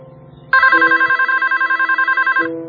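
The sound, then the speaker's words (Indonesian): A telephone rings with an incoming call in a restaurant kitchen, sounding as a loud, rapidly pulsing electronic ring at a steady pitch that lasts about two seconds before stopping. “ada sebuah telepon masuk. Beberapa kali telepon itu berdering.”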